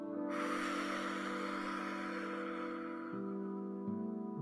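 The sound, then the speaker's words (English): A slow, audible human breath, an airy rush of air drawn in and let out, rising soon after the start and fading away over a steady, soft musical drone. “Let's breathe in. And out.”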